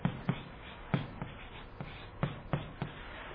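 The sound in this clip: Hand-drawing a diagram during a talk on the Holy Spirit, heard as faint, irregular taps and short scratches of a writing tool. Several sharp clicks are spread over a few seconds, with no voices.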